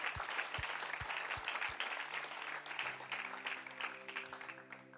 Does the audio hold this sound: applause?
yes